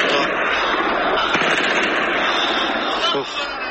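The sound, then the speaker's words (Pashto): Kalashnikov rifles fire at the Buddha statues of Bamiyan, making a dense, loud crackle of shots that continues throughout, mixed with voices. “د بودا په مجسمو د کلاشینکوف ډزې کوي”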